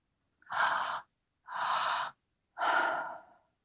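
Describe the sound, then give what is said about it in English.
Three evenly spaced breaths in a rhythmic breathing exercise for energy and focus. Each is a short, breathy whoosh of about half a second, separated by brief pauses, with no talk. “And feeling into the quality of your exhale as we breathe like this.”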